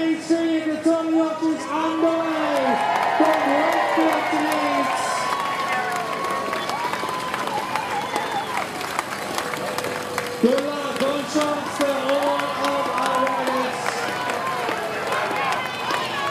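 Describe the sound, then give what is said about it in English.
Spectators cheer and shout as riders set off on the third stage of the Tour de Yorkshire in Wakefield. Loud, continuous crowd noise carries sustained calls and scattered clapping. “And there we go, they're underway. Third stage of the Tour de Yorkshire.”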